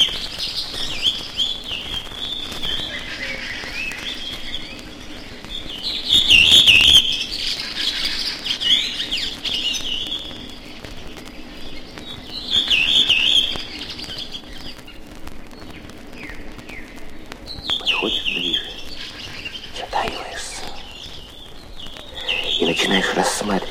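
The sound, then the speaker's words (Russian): A redwing thrush sings from an old dry birch beside a wide forest road wet with puddles. A few bright, chirping song phrases come in separate bursts over a steady low hum, with a quiet voice also present. “возле широкой сырой от луж лесной дороги на старой сухой березе поет дрозд белобровик.”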